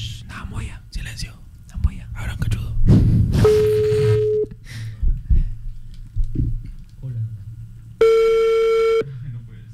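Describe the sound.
Two long, steady telephone tones after a call hangs up, each about a second long, separated by several seconds of whispering and rustling.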